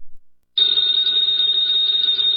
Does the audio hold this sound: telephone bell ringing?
yes